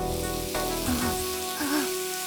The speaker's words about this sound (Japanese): 炒め物でも作っているのか。 この匂いはニンニクとバターなのだ。